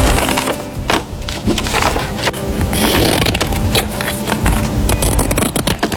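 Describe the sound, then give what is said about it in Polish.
Scissors cutting through paper make a dense, continuous crunchy rustle scattered with sharp snipping ticks. It is fairly loud and steady throughout, with no voices. “Cięcie papieru nożyczkami.”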